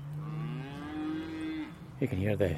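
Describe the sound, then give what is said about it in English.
Cattle lowing as cows and calves move between fields on a farm: a long, drawn-out moo followed by a shorter, rougher call, with quiet outdoor background between them. “the beasts, the coos and the calves, and they're moving between one field and another just in front of me.”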